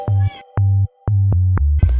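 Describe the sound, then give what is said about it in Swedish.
A cat meows several times in a row, drawn-out tonal calls separated by short gaps, loud and standing alone without talk. “Nu jamar din katt.”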